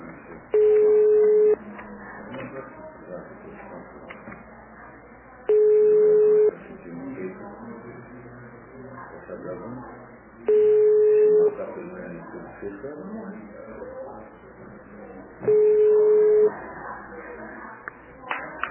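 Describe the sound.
A phone call to a notary office rings unanswered: four steady ringback tones, each about a second long, repeat at even intervals of roughly five seconds beneath ongoing conversation.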